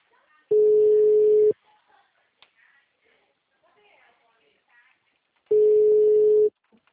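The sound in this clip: A telephone ringing tone on a call to a bank: two long, steady, low-pitched tones of about a second each, separated by a long pause with faint background noise.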